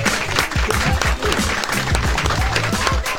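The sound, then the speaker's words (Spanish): Loud, dense applause from an audience, a continuous burst of clapping lasting about three seconds at an even level. “Queremos pedir un aplauso un fuerte aplauso para Dragon Ball Z”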